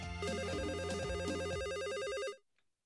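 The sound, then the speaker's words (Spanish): An electronic telephone ringer signals an incoming call to a radio show, giving a loud, steady warbling buzz that holds for over two seconds before stopping. “En Idaho, tenemos llamada.”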